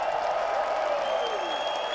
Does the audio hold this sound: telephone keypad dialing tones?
no